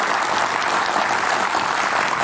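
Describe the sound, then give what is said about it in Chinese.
Audience applause at a robot demonstration event: a dense, steady clatter of many hands clapping together, holding an even loudness through the whole clip without pauses. “来，来，我们掌声送给他吧”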